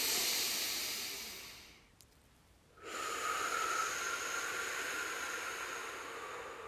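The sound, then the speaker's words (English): Deep breathing during a guided meditation: a long, airy rush fades away, a brief pause follows, then a sustained, steady hissing breath flows out of the mouth. “And that was a full exhale out of the mouth.”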